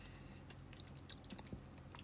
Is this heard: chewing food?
yes